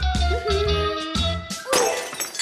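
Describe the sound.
Dishes shattering while a table is being set: sudden sharp crashes with a bright, ringing, breaking-crockery tail, heard among other tonal sounds and with no speech.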